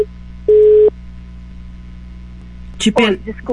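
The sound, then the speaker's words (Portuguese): A call-waiting tone sounds on a phone line as a call comes in: one clear, steady mid-pitched beep lasting under half a second, then a voice starts talking. “é que entrou uma ligação aqui.”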